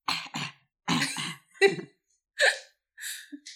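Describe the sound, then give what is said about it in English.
A video game character coughs from poison air in a series of short, harsh coughs and throat-clearing bursts, separated by brief pauses. “He starts coughing and I'm like, he goes, is that how he coughs? Do it again.”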